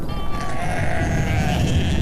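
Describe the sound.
Sheep bleating as a flock on a high alpine grassland, a herders' animals grazing. A few overlapping, wavering bleats sound over a steady low rumble of background noise that continues throughout.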